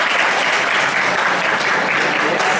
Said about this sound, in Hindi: तो लोग जो वहां थे गांव के लोग भी, उन्होंने तालियां बजाया